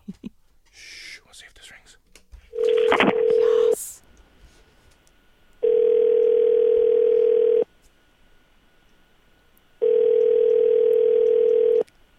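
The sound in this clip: Ringback on an outgoing telephone call: three long, steady electronic tones, each about two seconds, separated by longer silent gaps, with faint indistinct murmuring before the first tone.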